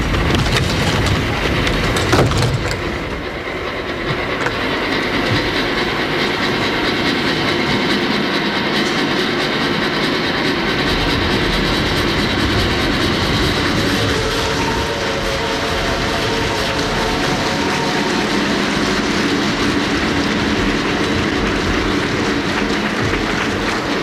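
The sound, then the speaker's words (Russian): A train pulling away from a platform, a loud, sustained rumble of wheels and rail clatter with a brief sharp knock near the start, then a steady droning hum that carries on for the whole stretch. “Федор один стоит на платформе и машет вслед уходящему поезду.”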